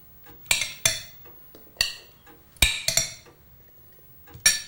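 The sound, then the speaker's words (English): Spoon clinks against a plate as peas are served at a dinner table. Several sharp, separate metallic taps come with quiet gaps between them, some in quick pairs. “spoons some onto a plate.”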